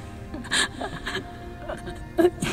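A girl whimpers and cries in darkness, with a few short, shaky bursts of high-pitched sobbing and catching breaths, the last one the loudest.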